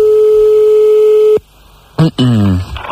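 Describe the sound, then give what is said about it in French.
A telephone ringing tone on a call in France holds one steady, continuous mid-pitched note for about a second and a half, then cuts off before a voice begins speaking. “nous allons appeler des messieurs et madame Lacrotte. Alors, on y va, c'est parti. Monsieur et madame Lacrotte, quelque part en France.”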